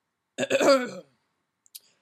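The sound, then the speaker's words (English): A man clears his throat once, a short rough rasp of about half a second, followed after a pause by a faint brief click. “Russ cleared his throat and started to dramatically tell”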